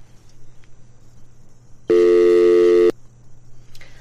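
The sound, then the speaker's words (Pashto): A telephone line tone sounds while a radio call-in connects: a single steady electronic tone lasting about a second, with quiet hiss before and after. “خب تماس بعدی رو میگیریم ببینیم کی هستن و از کجا تماس گرفتن”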